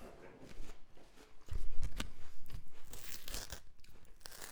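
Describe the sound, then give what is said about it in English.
Crisp crunching and tearing like a bite into an apple, with wet, peeling texture. Several rough bursts swell to a loud peak near the middle, then fade into softer crinkling. “That sounds so much like taking a bite of an apple.”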